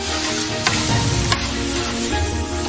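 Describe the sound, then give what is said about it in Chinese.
Chili, Sichuan pepper, ginger slices and bean paste sizzle loudly and continuously as they are stir-fried, with a couple of sharp scraping clicks from the stirring cutting through the dense hiss. “将新鲜鸡肉切块，过水去沫，再把辣椒、麻椒、姜片、豆瓣酱一起炒香，”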